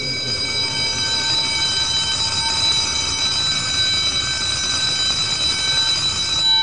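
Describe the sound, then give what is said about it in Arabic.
A school bell ringing: a continuous, loud metallic electric ring with a bright, buzzing tone that holds steady and unbroken for the whole clip. “الجرس”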